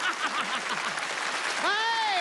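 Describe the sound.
Audience applause breaks out in a steady wash of clapping across the whole clip, with voices sounding over it.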